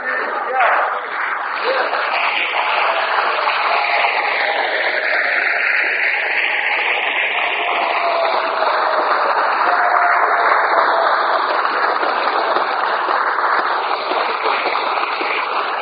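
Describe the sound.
Parliament deputies stand and clap, chanting a cherished word. Steady, dense applause continues without a break, with voices mixed in.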